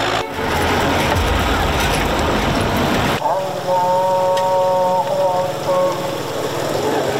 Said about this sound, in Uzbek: Botkenning Samarqandlik qishlog'ida tong sukunatni mirobning mototsikli shovqini buzadi.